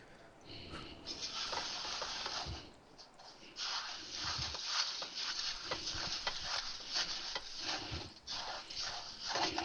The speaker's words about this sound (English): Here comes our Rice Krispies. That is 6 cups? 6 cups. Then we're going to stir, stir, stir.